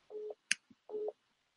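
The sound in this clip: An incoming phone call alert: two short, steady beeps of matching mid pitch, separated by a sharp click and a faint tick.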